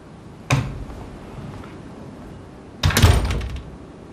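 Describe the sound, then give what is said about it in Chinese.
A door is shut with two dull thuds: a sharp knock near the start, then a heavier, longer clunk with a short rattle a couple of seconds later, over a quiet background. “把门关上。”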